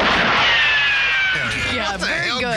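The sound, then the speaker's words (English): Gunfire sound effects from 1966, heard as a loud, sustained burst of noisy blasts with a whining tone that slides downward, then further crackling and ringing tones toward the end. “I just want to give a special shout out to the gun sound effects from 1966.”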